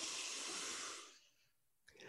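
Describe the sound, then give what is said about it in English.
People taking a deep breath on a count of three: a loud, airy rush of inhaled air that fades out after about a second, then a short, softer breathy sound. “if I can ask you both, please, to take a deep breath for me on the count of three”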